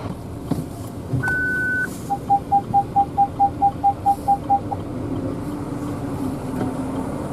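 Reversing beeps from a car backing up in a traffic jam: one long steady tone, then a rapid, even run of about a dozen short mid-pitched beeps over a low, constant rumble of traffic.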